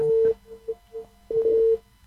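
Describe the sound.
Telephone busy tone after a phone-in call drops: a steady low beep that pulses irregularly, with two long, loud tones at the start and end and a few fainter, shorter pulses between them.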